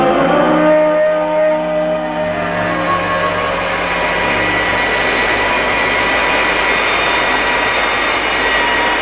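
An airplane engine drones in flight, a loud, steady roar with a thin high whine layered on top, holding constant throughout with no voices.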